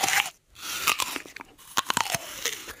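Crisp crunches come from teeth biting into a green, sour apple, a few loud snapping bites followed by wet, crackly chewing, close and alone.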